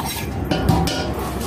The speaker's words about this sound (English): I have to use this big pan because I don't really know. And then I'm going to add prosciutto, which I chopped up, and some onion.